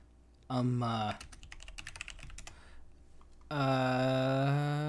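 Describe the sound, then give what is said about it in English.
Typing on a computer keyboard, heard as a quick run of crisp, irregular key clicks lasting under two seconds, framed by louder, sustained tonal sounds before and after. “When we're typing. I hear a clickety-clack.”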